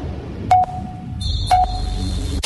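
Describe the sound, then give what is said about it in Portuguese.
A radio station's three-second time signal sounds as two short mid-pitched beeps a second apart. A higher steady tone enters between them and holds to the end over a low background hum. “Atenção, emissoras associadas, para o toque de 3 segundos.”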